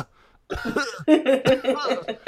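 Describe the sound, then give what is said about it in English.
A voice imitates a man's deliberately fake, phlegmy cough: a few short, voiced coughing bursts in quick succession, loud and alone. “he starts trying to fake cough again where he's just like”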